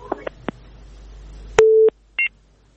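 A telephone tone after a dropped call: a few faint clicks, then a short, steady, low tone and a brief, higher beep.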